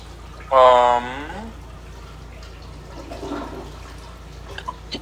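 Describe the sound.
A loud toilet flushes with a strong rushing burst lasting about a second. A fainter stretch of running water follows over a low background hum.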